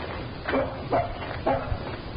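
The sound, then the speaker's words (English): Three short, sharp barks from a dog come at a steady pace, fairly faint over a constant hiss. “He's followed us. I'm more interested in what he's barking at than the bushes.”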